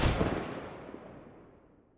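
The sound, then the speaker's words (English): Gunfire from the Halo 5 Battle Rifle in the video game, heard alone: a short, sharp boom that is loud at its peak and fades off quickly into a thinning tail. “So, here we are. We're going to start off with the Halo 5 Battle Rifle.”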